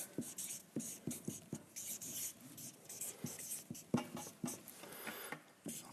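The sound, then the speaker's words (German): A pen scratches quietly across a writing surface as notes are jotted down. Many short rasping strokes follow in an uneven rhythm, faint and alone, with no talk. “Ich schreibe es euch vielleicht mal ein bisschen zusammen, dass ihr das vielleicht auch nochmal schön vor Augen habt.”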